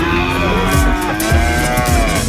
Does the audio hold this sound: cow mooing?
yes